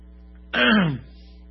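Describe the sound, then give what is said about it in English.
One throat clearing, a rough, gravelly rasp of about half a second that rises abruptly and stops just as quickly, heard alone against a quiet background. It comes as a person has something caught in their throat during allergies. “I got something caught in my throat right at the wrong moment.”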